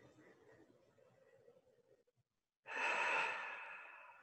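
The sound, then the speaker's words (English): A deep breath taken during a guided meditation: a soft, breathy stretch, a brief silence, then a loud rushing exhale that slowly tapers off, with no voices. “Deep breath.”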